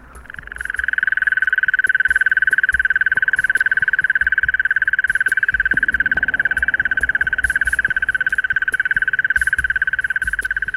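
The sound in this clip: A mole cricket sings a continuous, loud, buzzing trill that starts after a brief quiet moment and holds steady at one pitch with a fine, rapid pulse throughout.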